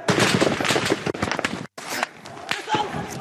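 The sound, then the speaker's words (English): Police and army gunfire at protesters in Bahrain, where tear gas and bullets were used: sharp, rapid cracks and bangs in dense bursts over continuous crowd noise and voices, with a brief drop to silence partway through. “The police and the army opened fire, using tear gas and bullets.”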